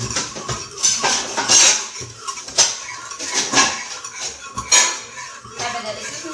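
A whisk clatters and scrapes in a bowl during cooking, making a busy, irregular run of metallic clinks and scratchy swishes whose loudness keeps shifting. No one speaks.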